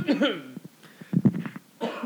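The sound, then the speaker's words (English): A person coughs away from the microphone, giving faint, rough bursts in a short cluster with some brief voice sounds around them. “I was just coughing off mic.”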